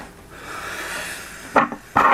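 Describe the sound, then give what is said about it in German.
Plastic battery compartment lid being closed after a battery is fitted: faint rubbing and handling at first, then a few sharp, bright clicks and snaps toward the end. “Falls man doch falsch rum haben, müssen wir es halt nochmal aufmachen. Wir klappen das Ding wieder zu.”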